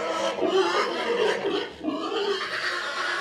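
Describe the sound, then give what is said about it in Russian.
Rough, noisy grunting from a newly bought pig, steady through the whole clip with a few louder swells over a constant background hiss. “купили свинью.”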